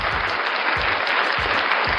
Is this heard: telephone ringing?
no

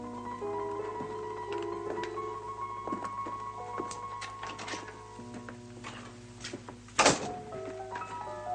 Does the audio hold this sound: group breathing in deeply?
no

